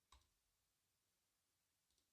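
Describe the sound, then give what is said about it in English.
Faint computer mouse clicks, a few quick isolated ticks spaced far apart over near silence. “All right, let's click into some videos here.”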